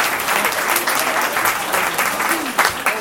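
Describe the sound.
Audience applause for a panel discussion: dense, steady clapping from a crowd that fills all three seconds without any talk.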